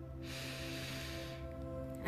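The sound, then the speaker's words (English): A slow, deep inhale through the nose, a soft airy hiss that swells for about a second and then fades, faint over a steady low tone underneath. “take a few deep breaths, inhaling deeply through the nose”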